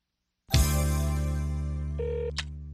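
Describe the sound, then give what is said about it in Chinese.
A telephone sounds as a woman calls a restaurant to book dinner seats. One sharp, bright ringing strike sustains and slowly fades, with a brief steady beep tone near the end and a small click after it. “一位女士打电话给星光餐厅预定晚餐的座位。”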